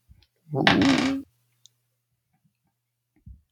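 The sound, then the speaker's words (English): Dice rolled in a single rattling burst lasting under a second, followed by one faint click and, later, a soft low knock. “Reigns selflessly passed, I'm going to roll a dice. And dice will decide who gets the other reward.”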